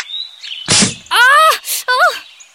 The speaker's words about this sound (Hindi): मैंने सोचा air gun है तो एयर ही निकलेगी ना। मेरी गन मुझे ही मार दी।